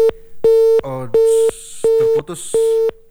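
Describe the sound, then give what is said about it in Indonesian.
Busy tone after a phone call dropped during an interview: loud, steady single-pitch beeps in an even on-off rhythm, one clipped beep followed by four full ones, with brief voice fragments in some of the gaps. “terputus teleponnya, mohon maaf pendengar.”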